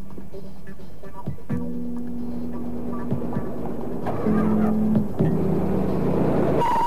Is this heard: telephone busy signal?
no